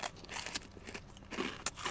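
Crunchy black pepper rice crackers being bitten and chewed: dense, crackly crunching throughout, with a few sharper snaps standing out.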